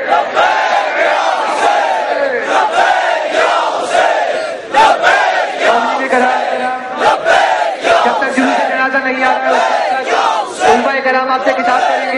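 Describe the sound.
A large crowd at a religious majlis gathering loudly chants the slogan "Labbaik ya Husain" in unison, with repeated rhythmic shouts that go on without a break.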